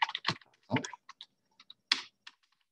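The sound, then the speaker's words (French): Quiet typing of a message on a computer keyboard in a team chat app: many light, irregular key clicks in short clusters with brief gaps. “Si je tape mon message ici, et je retape”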